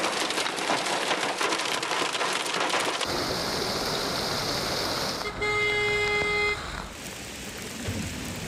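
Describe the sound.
Heavy rain pours on city streets in a steady, dense hiss. Partway through, a sustained car horn honk rises above it before the downpour carries on alone.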